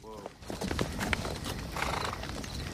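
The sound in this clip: Clip-clop of horse hooves approaching a massacre site with a burning wagon at night, a steady rhythmic trot with a horse's whinny near the start, over a voice speaking throughout.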